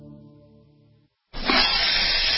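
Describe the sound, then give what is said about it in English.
An RV freshwater tank overflowing into its black water tank gives a loud, continuous hissing rush. It starts abruptly after a brief tone and a short silence. “But that's not a copperhead. That's the Sullivan's RV freshwater tank overflowing into their black one,”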